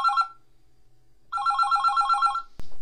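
A telephone rings on an outgoing call placed on air: two ring bursts, the first cut short and the second lasting about a second, then a sharp click after a pause.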